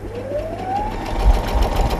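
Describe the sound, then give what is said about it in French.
A sewing machine stitches a small fabric pouch. Its motor whine climbs in pitch as it speeds up, then settles into a steady, fast mechanical hum. “on va pouvoir faire le petit pochon pour le ranger sur la machine à coudre. Ça va, vous le sentez ? Allez, j'essaie.”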